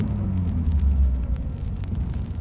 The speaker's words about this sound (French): Un avion doit décoller au bout de la piste.